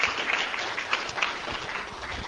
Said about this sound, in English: Let's, as always, give a round of applause to Annette and to Brandon here at Bella Notte